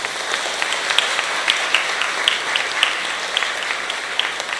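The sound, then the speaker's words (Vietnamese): Audience applause at a teacher's Sunday afternoon gathering for young people: dense, steady clapping from many hands, even in loudness from start to end, with no voices standing out. “thầy chúc mừng bằng lời tán dương, xin cho một tràng vỗ tay thật lớn để”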